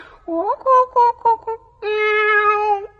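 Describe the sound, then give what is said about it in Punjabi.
A cat meows repeatedly, four short, bright, rising-and-falling mews in quick succession followed by one longer, drawn-out meow, loud and clear with nothing else around it. “ਸੁਣ ਜਾ, ਮਾਣੋ ਬਿੱਲੀ ਆ ਗਈ।”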